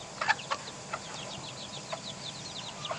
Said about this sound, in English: And this one has some little chicks. I wonder if you can hear them.